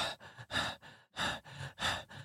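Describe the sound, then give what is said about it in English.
Steady, dog-like panting comes from behind a door: a run of six rhythmic, breathy huffs with short gaps between them. The huffs are fairly loud and even, with no voices. “Just like a consistent panting. Oh, like a dog. Not like someone just puffed panting.”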